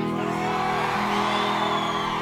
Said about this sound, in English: I'm serious, you guys are always the first show to sell out. You're the freaking loudest crowd in the United Kingdom.